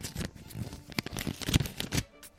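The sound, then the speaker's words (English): An envelope torn open by hand, faint crackly papery ripping and rustling in irregular bursts. “Can I say next year, can we have some better quality envelopes, please? Yes. They're much better quality envelopes this year. I think we need to get you a letter opener, don't we? I have a letter opener. Actually, I should have used that,”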